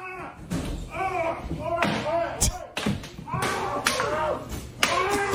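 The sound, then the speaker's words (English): Heavy blows from a big broom handle beating a man who is held down in a fight: several sharp thuds and cracks land at uneven intervals among loud, agitated voices. “Dude in the turban has a looks to be like a big fucking broom handle and is just beating the shit out of him while the other guy holds him down.”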